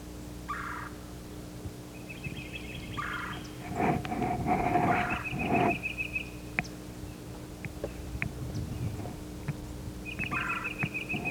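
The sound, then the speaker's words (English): A yellow-throated warbler sings from a mixed flock moving along an edge near a bare turkey oak. Its bright, high, clipped phrases repeat a few times, fairly faint, among scattered calls and chips from other birds. “Yellow Yellow is singing. There's a yellow-throated warbler singing.”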